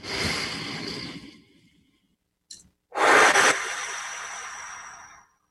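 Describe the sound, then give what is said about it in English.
Slow, deep breaths in and out during a guided relaxation exercise: a long airy breath, a pause with a short catch of air, then another long, rushing breath that fades away. No voices are heard. “Breath number one, just notice the air going in and out. Breath number two, relax.”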